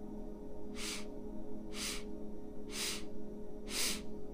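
Breathing during a guided breathing exercise: four short, soft, breathy hisses of air, evenly spaced about a second apart, with no talk over them.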